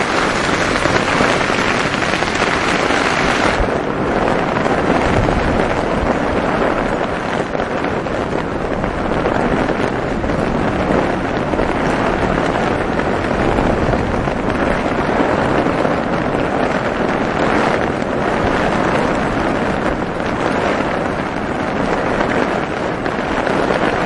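Heavy rain pours steadily onto a surface, a loud, continuous dense hiss that lasts the whole stretch, with wind buffeting the microphone.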